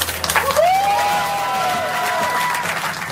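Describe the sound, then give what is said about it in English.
Jubilant cheering and applause erupt in NASA Mission Control as the Juno spacecraft enters orbit around Jupiter. A crowd claps and cheers loudly and steadily throughout. “That, of course, the jubilant sounds from Mission Control as Juno entered the”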